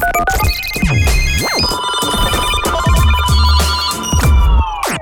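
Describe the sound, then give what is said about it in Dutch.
An incoming phone call rings out as a melodic electronic ringtone: a bright run of tones with several gliding, sweeping notes, playing loud and continuous for about five seconds with no one talking. “En daarom heb ik met hem gebeld.”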